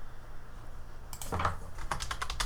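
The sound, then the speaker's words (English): Computer keyboard typing while searching for pictures of a papaya online: a quiet start, then a quick run of many light, clicky keystrokes in an uneven rhythm through the second half. “Yep, that sound is me looking up the picture of a papaya.”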